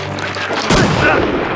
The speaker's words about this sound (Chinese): 你他娘的真开枪！